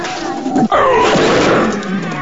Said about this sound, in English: The Spartan thrusts, but the Minotaur grabs the head of the spear and hits the shield with an overhead swing.